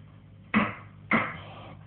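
Two heavy, dull bangs land on an escape door blocked by earth on the other side, struck about half a second apart. Each bang has a short fading rumble over a faint steady hum.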